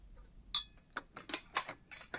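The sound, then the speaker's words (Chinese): Bowls and chopsticks are set down after a meal, making a few light, bright clinks and taps that are spaced unevenly and stay fairly quiet. “那你把碗筷放在那边就可以了，一会儿我来收拾。”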